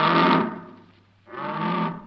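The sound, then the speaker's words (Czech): A red deer stag calls during the rut, played back through a radio receiver. Two long, coarse roars with a thin, distorted tone are separated by a brief quiet gap. “V rámci názornosti se z přijímače line hlas jelena v říji.”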